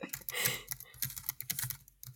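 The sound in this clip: Rapid typing on a computer keyboard while jotting down a note: many quick, crisp keystrokes in an irregular burst-and-pause rhythm, fairly loud and clear, with no talking over it.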